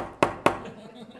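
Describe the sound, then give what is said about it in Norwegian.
Two sharp, quick knocks on a door during a meeting, evenly spaced a quarter second apart, followed by soft background murmur. “Da, jeg kan banke litt”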